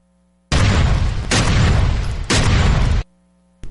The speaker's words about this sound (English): That was our 50 caliber, 100 pound AR-15 firing off a few shots across the bow.